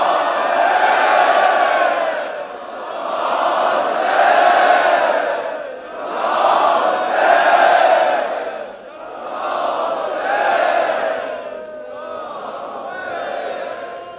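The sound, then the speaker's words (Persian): A large crowd shouts "Ya Hussein" with raised hands, loud massed voices rising and falling in about five long chanted surges, the last one weaker. “دست نوعت بالا با همه وجودت داد بزن یا حسین”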